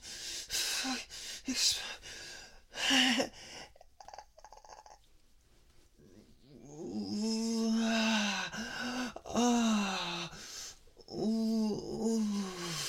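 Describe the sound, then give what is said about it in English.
Throaty gagging and gasping sounds from a person during oral sex, coming in irregular bursts with voiced moans between them, moderately loud with quieter breathy stretches. “that gagging sound that you're making”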